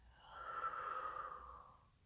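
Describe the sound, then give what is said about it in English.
A deep breath is exhaled during a guided eyes-closed relaxation exercise. A single soft, airy rush swells and fades over about two seconds, faint and alone. “we're going to take three deep breaths. And we're going to the first one. Exhale in”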